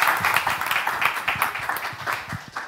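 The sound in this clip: Audience applause welcoming a speaker, steady, dense clapping that continues at an even level throughout.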